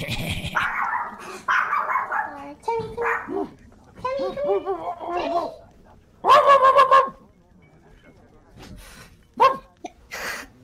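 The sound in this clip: A person imitates a dog barking, producing voiced woofs in several short bursts, with a loud cluster of barks midway and a few sharp ones near the end.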